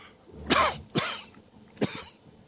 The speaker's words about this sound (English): dies here of coughing to death making a podcast